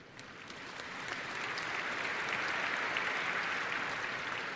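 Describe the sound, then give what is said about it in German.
An audience applauds at a formal company reception while guests are being welcomed. The clapping is steady, dense and fairly soft, swelling slightly and holding level to the end. “Sie dürfen ruhig klatschen.”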